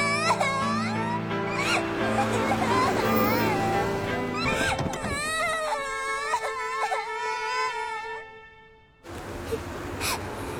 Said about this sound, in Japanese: いつまで泣いてるんだ？